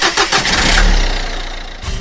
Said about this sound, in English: See? Traffic.